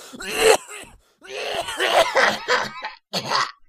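Coughing and throat clearing: a few rough, raspy bursts separated by short pauses, fairly loud, with no talk.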